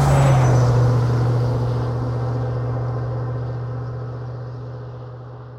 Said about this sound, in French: Bono appuie sur l'accélérateur. Il atteint la route reliant Chantilly à Paris. Une voie goudronnée, toute droite. Une vraie piste de vitesse.